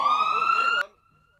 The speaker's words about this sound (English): You're trigger happy with that, the popo one. I do. I like the siren.